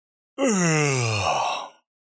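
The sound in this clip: A male voice gives one loud, drawn-out yawn that lasts well over a second, with its pitch falling steadily, and it is heard alone with no other sound.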